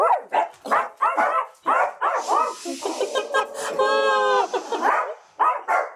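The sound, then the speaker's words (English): Dog barking in rapid bursts of sharp, loud barks, with a longer stretch of strained, drawn-out yelping in the middle before more barks return. “This is not a dog barking break, okay? You don't get to just do this, okay? It sounds terrifying.”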